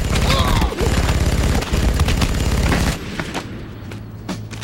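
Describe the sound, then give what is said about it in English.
A machine gun fires a loud, rapid burst of shots for about three seconds, followed by a few scattered, quieter cracks as the firing dies away. “He lifts a machine gun and fires on the three soldiers.”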